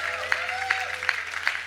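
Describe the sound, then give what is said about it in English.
A church audience clapping during a morning service: a dense bed of hand claps with sharper accented claps landing on a steady beat, over a faint low sustained tone. “somebody give Jesus a really big hand clap this morning?”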